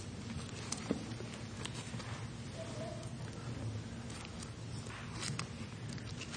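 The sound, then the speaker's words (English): Rain pattering as a steady, dense wash of faint taps that runs without a break, fairly quiet and even. “But it's a beautiful day. Rain doesn't make it unbeautiful. It makes it promising.”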